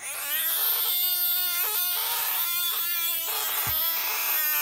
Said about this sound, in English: Is that a toddler playing with a squeaky toy or a frog? It is a frog, and he didn't sound very hoppy.